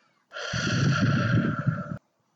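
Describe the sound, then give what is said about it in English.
A single long inhale during a guided breathing exercise, rising from silence into a steady, airy breath that lasts more than a second and a half before stopping abruptly, heard alone. “And breathe in.”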